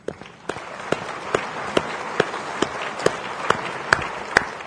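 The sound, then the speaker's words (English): Slow, rhythmic clapping from an audience giving a vote of thanks to a group of investment professionals. The sharp, evenly spaced claps fall about twice a second, roughly eleven in all, above a low background hum. “I'd like you now give a vote both of thanks to these folk through now clapping your hands”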